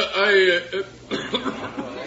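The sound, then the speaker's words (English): A man coughs during a wedding ceremony: a few short, rough, throaty bursts, fairly loud, following a voiced sound at the start. “No. I'm sorry. I just coughed.”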